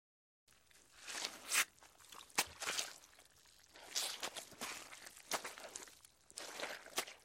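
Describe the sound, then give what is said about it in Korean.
Footsteps of a woman walking across wet, waterlogged ground where her feet sometimes sink, heard as an uneven series of soft crunching, squelching steps. “그녀는 말없이 걷기 시작한다. 때때로 물은 땅에 발이 빠져 그녀는 휘청거린다.”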